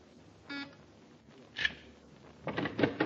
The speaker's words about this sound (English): It's locked. We'll have to use the Magna key.